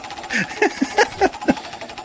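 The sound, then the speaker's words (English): A prize wheel spinning, heard as a quick run of sharp mechanical clacks at a fairly even rhythm, moderately loud against a low background hiss. “Coincidentally, the wheel didn't move at all. No, I'm just kidding. It's spinning.”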